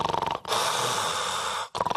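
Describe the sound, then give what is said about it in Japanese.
A person imitates heavy snoring, as in sleep apnea, with a long, rasping, breathy snore flanked by short voiced grunting bursts, moderately loud with no talk. “私真似が上手なんですが、こういびきをかいています。”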